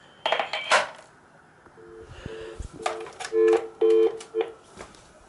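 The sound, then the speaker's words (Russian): Short electronic beeps from key presses while a device is being programmed: a quick series of steady, identical tones after a few sharp clicks of handling. “Кстати говоря, программирование еще доносится специальным звуковым сигналом. Нажатие клавиш.”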